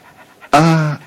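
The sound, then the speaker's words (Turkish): A dog panting, a single loud, voiced breathy huff lasting about half a second that follows a few faint, softer breaths. “Acayip. Sanki beni tanıyor bu köpek.”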